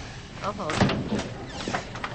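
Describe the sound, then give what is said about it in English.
A professor's office door being closed, a brief muffled thud amid shuffling sounds, with voices present. “Alcott comes out and closes his door.”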